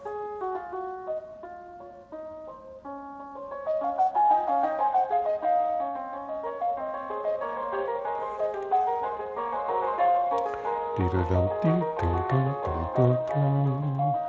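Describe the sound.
A keyboard fugue played through little computer speakers, with a tinny tone: a single melodic line opens, then further voices join so the texture thickens into dense interweaving lines.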